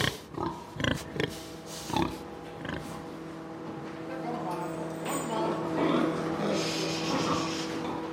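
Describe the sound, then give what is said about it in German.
Pigs grunting on a farm where sows are farrowing: a few short, low, rough grunts come in bursts near the start, then a steadier murmur of noise continues under faint tonal hum. “Aber nicht jedes Grunzen ist gleich. Wie drücken Schweine positive Emotionen aus?”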